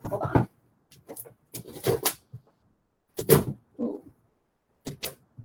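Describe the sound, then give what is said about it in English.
A tightly packed cardboard gift box is opened in several short bursts of rustling and scraping, fairly quiet and separated by silences, with no talk. “Even me just like opening up this box will like create like an ASMR noise.”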